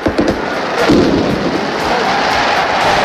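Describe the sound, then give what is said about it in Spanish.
A traca, a chain of firecrackers, goes off at a football celebration after a 2-1 Valencia cup win. After a few sharp opening cracks, the loud bursts blur into a continuous crackling roar. “Las tracas, como en los festejos falleros, hacen sonar sus petardos.”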